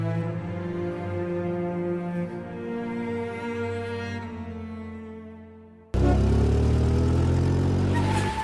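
A car engine drones steadily as the vehicle drives through the night toward a prison. The low harmonic hum slowly fades, then gives way abruptly to a louder burst of rushing noise.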